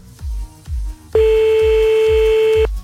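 Telephone dialing tone as a caller is called back: a single sustained electronic beep over a regular, low thumping pulse that repeats about every half second.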